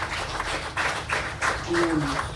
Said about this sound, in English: Okay, another applause for Lena.